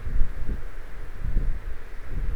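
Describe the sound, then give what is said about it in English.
Wind blowing outdoors, buffeting the microphone with a low, rumbling roar that swells in a few gusts and never falls silent; no voices are heard. “And I'm gonna wait till the wind dies down, and then I'll sing my song.”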